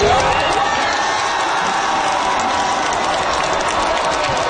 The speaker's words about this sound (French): Alors voilà, ce que vous entendez, c'est la foule au Fan Festival de Vancouver après la victoire de la France, qui lui ouvre la porte d'ailleurs des demi-finales, oui, de la Coupe du monde de soccer.